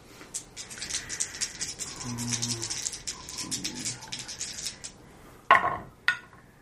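Dice rattling and tumbling in a dice tray during a tabletop game: a long run of many small clicking, pattering rattles, then two sharp, bright knocks as the dice land, with no voices.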